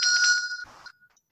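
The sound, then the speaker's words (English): A bell rings during mantra recitation with a bright, sustained metallic tone that fades out within about a second, heard alone. “And if the neighbors are okay, you can be ringing the bell.”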